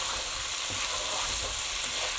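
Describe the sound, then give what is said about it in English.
Sausages, spices, vegetables and canned ingredients are stirred together in a frying pan, giving a steady, dense sizzle with faint scraping throughout and no talking. “Right, I'm just going to stir those in with the sausages and the spices and vegetables.”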